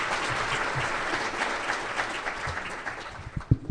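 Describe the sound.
Sustained audience applause welcoming the closing speaker at a session: a dense, steady patter of many hands clapping, with a few louder low thumps near the end.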